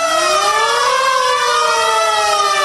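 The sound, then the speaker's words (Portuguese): A wailing siren sound effect played by a DJ at a live pop party to launch a 'time machine' segment: a loud, continuous, harmonic-rich tone that climbs in pitch, then slowly sinks, with no voices. “Vamos acionar a nova máquina do tempo.”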